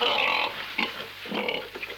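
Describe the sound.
Pig oinking as a sound effect: a few short, grunty, nasal oinks in quick succession, fairly loud and heard alone without any talk.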